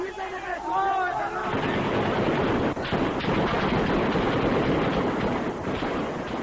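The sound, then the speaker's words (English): Gunfire rings out during a street uprising against the Shah in Iran, centred on a square. A voice is heard briefly, then dense, rapid crackling bursts of shooting blur into a continuous noisy din. “The most incredible thing is that after each fusillade of bullets, these people are returning to this square. You can hear the shooting right now.”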